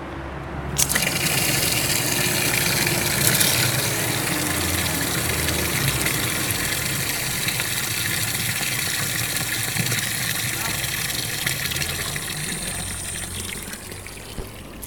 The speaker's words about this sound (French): il y a de l'eau, donc on en profite pour remplir les bouteilles à la fontaine